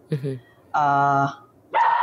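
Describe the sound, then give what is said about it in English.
A dog barks and yips in a few short, bright bursts, one of them drawn out into a longer whining bark, with quiet gaps between them. “Sorry, that was my dog.”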